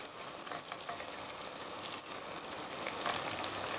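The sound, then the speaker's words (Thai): Curry paste and coconut cream sizzle as they are stir-fried, with cassia flowers added to the pan. The frying is a faint, steady crackle and hiss that carries on throughout, with no voices. “ผัดสุกแล้วเนอะเราก็ใส่ดอกขี้เหล็กเลย”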